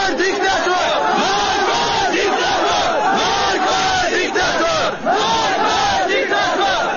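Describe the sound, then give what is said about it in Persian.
A large crowd chants protest slogans at a funeral procession in Kurdistan, many voices shouting together in loud, rhythmic waves that barely pause. “بر اساس این فیلم ها شعارهای مرگ بر دیکتاتور نیز از سوی شرکت کنندگان در مراسم تشییع سر داده شد.”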